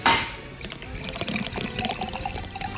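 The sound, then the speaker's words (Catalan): Wine from Llessuí in Pallars Sobirà is poured from a small carafe into a glass, making a continuous splashing, gurgling stream of liquid that lasts about three seconds. “Doncs aquest vi ve del Pallars Sobirà, concretament d'un poble que es diu Llessuí, que és un poble que jo m'estimo molt, perquè últimament hi pujo molt i em cuiden molt. Aquí tens el teu got.”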